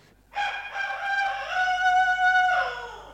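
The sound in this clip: A rooster crows once in a single long, loud, harmonic call that holds steady before trailing off at the end, with no other sound around it.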